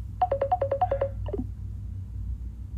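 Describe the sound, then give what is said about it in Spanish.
A phone ringtone sounds for an incoming call: a rapid run of short beeps alternating between two pitches, then a brief falling tone, over a low, steady hum. “Y sí, me entró una llamada, pero no lo voy a cortar, o sea, voy a seguir con toda la conversación.”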